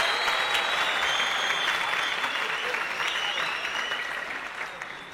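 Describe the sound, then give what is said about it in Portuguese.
An audience at a comedy roast applauds with dense, steady clapping that stays strong for about five seconds, then eases off slightly at the end. “Ih, vamos aplaudir isso.”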